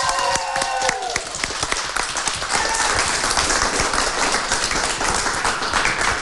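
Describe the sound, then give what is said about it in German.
Big applause rings out for both teams on a cooking show: dense, steady clapping from an audience that stays loud and even to the end. “Riesenapplaus an beide Teams. Ich würde sagen, den hören wir jetzt mal.”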